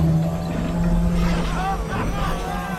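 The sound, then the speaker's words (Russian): A helicopter engine starting up, heard as a steady low droning hum with a constant tone, and voices speaking over it. “Заработал! Он сел в вертолет и завел его.”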